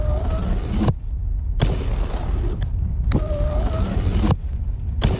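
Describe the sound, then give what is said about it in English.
Car power windows being run open and shut over and over: several sustained whirring motor runs, each ending in a soft clunk and followed by a brief lull before the next run starts. “Oh, can you please just stop playing with the windows?”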